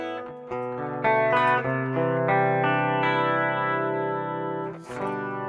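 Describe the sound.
An instrument plays a few sharp notes and then a sustained, wavering chord, run through a chain of compressor, pitch-shift delay, digital reverb and vibrato effects, with a fresh attack near the end.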